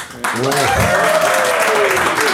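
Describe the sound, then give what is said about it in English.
A live audience breaks into applause when asked to back one side of a debate. The clapping starts abruptly after a brief quiet moment and then holds strong and even, with voices or cheers rising over it. “I would like you to applaud now.”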